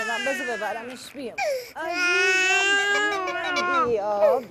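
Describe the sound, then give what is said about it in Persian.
A child crying loudly, with sustained, high wavering wails broken by a short catch of breath, then a long rising and falling cry. “گریه نکن دیگه باریکالله”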